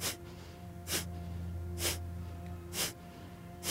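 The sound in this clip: Sharp nasal exhalations during a breathing exercise with the mouth closed: five breathy bursts at a steady, quick rhythm over a low constant hum.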